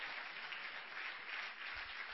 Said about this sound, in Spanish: Dele palmas a Jesús de Nazaret.